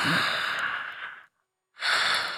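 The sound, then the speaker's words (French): A person lying in bed takes a deep breath. Two soft, long, airy rushes of breath are separated by a short silence. “Il bâille à s'en décrocher la mâchoire. Il ferme les yeux. Il respire profondément.”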